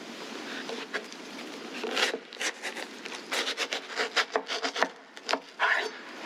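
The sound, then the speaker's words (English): A watermelon is cut in half, heard as scraping, rasping strokes through the rind and flesh that come faster and more rhythmic toward the end, each stroke short and gritty. “what they would do is they would take an animal, and we're going to use this watermelon and pretend it's a small animal, and they would cut that animal in half.”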